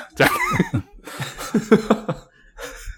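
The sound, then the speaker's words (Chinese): A person clearing their throat with several raspy, voiced bursts and hummed tones, some sounding like short coughs or chuckles, ending in a fainter rasp. “清一下喉咙， 清一个。”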